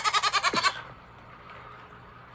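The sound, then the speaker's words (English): A goat gives one loud, quavering bleat with rapid pulses at nightly milking time, followed by low, quiet background sound and a brief noise at the very end. “this is what I do every night to milk the goats.”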